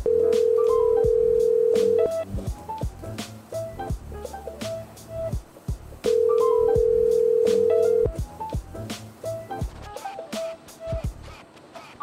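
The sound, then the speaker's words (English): An unanswered telephone call rings out as two long, steady ringing tones several seconds apart. Scattered clicks and short tonal beeps fill the gaps between them. “You have reached the voicemail box of 61. Damn it. No one's picking up.”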